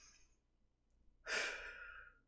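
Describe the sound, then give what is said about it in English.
A single deep, audible breath, soft and airy, swells suddenly and then trails off slowly, heard alone without any talk. “take a deep breath with me.”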